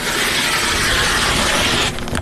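Fabric being cut, a yard of dark blue floral cloth in a small craft store: a loud, continuous rasping crunch that breaks off just before the end.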